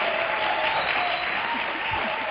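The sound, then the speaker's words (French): Applause from a church audience clapping for God during a bilingual sermon, a dense, loud, steady wash of clapping that holds evenly from start to finish. “So why don't you clap for God? Donc pourquoi est-ce que tu n'acclames pas pour Dieu?”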